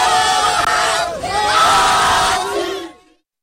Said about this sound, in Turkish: Öte yandan bazı Türk taraftarlar maç sonunda galibiyeti kutladı.